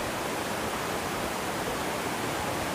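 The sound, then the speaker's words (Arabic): Water pours over the waterfalls at a river barrage in a steady, loud, unbroken rush that holds evenly throughout. “كل اللي عايز بيجي يفسح ولاده او يقضي يومه بيجي يقضي هنا في شلالات القناطر هنا.”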